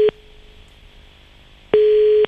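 A steady telephone line tone sounds during a redial: a clipped beep at the very start, a quiet gap with faint hiss, then a longer beep of the same fixed pitch, loud and without voices.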